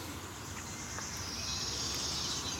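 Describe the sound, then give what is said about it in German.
A wood warbler sings a high, dry, shivering trill that swells louder in the second half, heard faintly over steady low background noise. “Aber ihr könnt schön den Waldlaubsänger inhalieren.”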